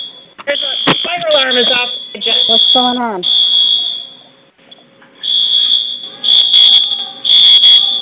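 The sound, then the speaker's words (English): A fire alarm sounds with a loud, piercing high-pitched tone in long sustained blasts separated by short gaps, shifting to quicker pulses near the end. People talk over it at the start. “We have the fire alarm going off.”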